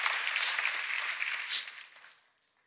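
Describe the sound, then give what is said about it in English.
A church audience claps during a morning service to welcome a newly planted church. The bright burst of applause holds briefly, then dies away to silence. “Let's give them a hand. Welcome them this morning.”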